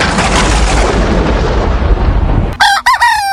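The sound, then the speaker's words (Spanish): Rooster crowing in a home farmyard pen: one loud, short crow at the end, following a steady, broad roar of noise. “Y es un gallo sapito que tengo ahí yo en el corral en la casa.”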